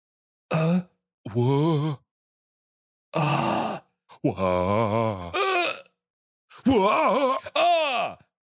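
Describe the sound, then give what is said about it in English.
Human voices imitate 'ah' and 'wah' noises: several drawn-out, groaning vocal sounds separated by pauses, some wavering up and down in pitch and one ending in a falling sweep. “Can we try to make the ah and wah noises?”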